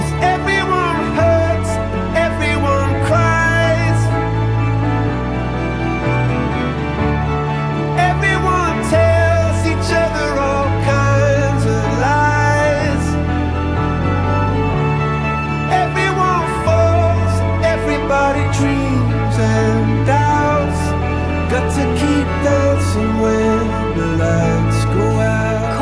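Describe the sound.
A band's title track from its eighth studio album, a song from the album's Sunset half, plays alone as a dense full arrangement with steady low bass and sustained chords, loud and even throughout with no voices over it.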